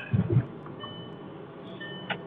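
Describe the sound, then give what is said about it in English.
Car seatbelt warning beeping because the front passenger is not buckled in, a few thin high tones at a steady pace over low road rumble, after a couple of soft thumps at the start. “Driving, and it keeps beeping because Zobie's in the passenger seat and he's not buckled in, so that's why it's beeping like that.”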